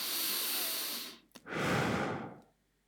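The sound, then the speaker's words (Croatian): A slow, deep, conscious breath: a long, loud, airy inhale, a short pause with a faint catch, then a full exhale that fades out. No talking. “Ok, sad ću napraviti još jedan svjesni udah.”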